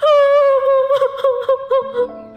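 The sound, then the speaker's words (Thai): A heartbroken girl crying alone in her room: a loud, sustained high-pitched wail that breaks into short, stuttering sobs. “เป็นอะไร มานั่งร้องห่มร้องไห้”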